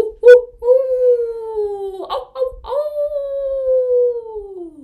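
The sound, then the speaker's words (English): A human voice imitates a coyote howl in a folk tale about a coyote preparing a Kachina dance. There are two long, loud howls, each sliding slowly downward in pitch, and the second trails off at the end. “Coyote went to the place where he could howl the best”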